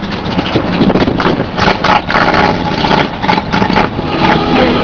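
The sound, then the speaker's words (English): Motorbike engines on a long road ride keep up a steady, loud, rumbling drone that swells and dips slightly throughout, with no voices. “That's the noise of the bikes.”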